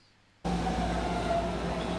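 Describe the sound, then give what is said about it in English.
Loud, steady roar of a BART subway train at a San Francisco station platform. It starts abruptly after a brief near-silence and carries faint sustained whining tones. “typical BART platform. Now there are places marked where the doors are going to be when the train stops.”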